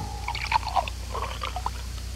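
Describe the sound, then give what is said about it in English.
Juice pouring from a container in a juice advert: brief liquid splashes and trickles, fairly faint and patchy, lasting about two seconds with no talk. “Should've gotten Vitapack just open up and pour.”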